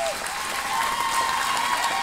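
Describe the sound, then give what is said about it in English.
Several hundred people give an emotional standing ovation in a barn at the Harney County Fairgrounds in Oregon. Loud, sustained applause from the crowd holds steady the whole time. “Several hundred folks crowded into a barn at the Harney County Fairgrounds, and before Sheriff Dave Ward could even take the microphone, this emotional crowd erupted into a standing ovation.”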